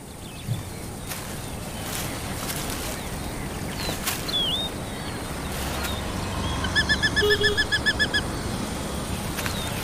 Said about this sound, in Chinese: 这只雏鸟将成长为凶猛的猎手。